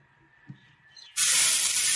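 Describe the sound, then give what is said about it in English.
Chopped brown onions and garlic sautéing in olive oil for spicy cabbage rolls: near silence with one small knock, then a sudden loud, steady sizzle that bursts in after about a second and keeps hissing to the end. “Okay, I've got the onion sauteing in a bit of olive oil. So that's a couple of tablespoons of olive oil, two chopped brown onions, and I have the garlic in there as well”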